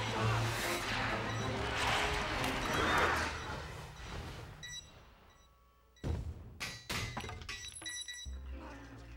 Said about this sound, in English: The blast in that building was caused by Bomb Voyage,